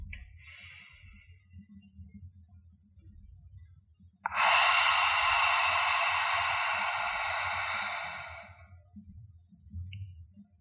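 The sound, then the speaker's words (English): A long, open-mouthed exhale in a guided breathing exercise, breath pushed out through the mouth as if fogging a mirror. A soft, brief breath comes first, then the main airy hiss holds steady for several seconds before fading out. “inhale through the nose to fill up the lungs and exhale through the mouth, making a sound like fogging a mirror. Exhale completely.”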